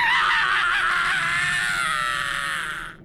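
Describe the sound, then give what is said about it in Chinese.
A terrible, shrill, piercing scream rings out in a dark alley: one loud, sustained, wavering high cry that holds steady and then cuts off near the end. “一声可怕的尖利刺耳的喊叫，达利”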